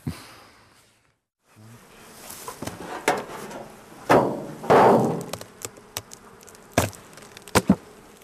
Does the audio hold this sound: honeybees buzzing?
yes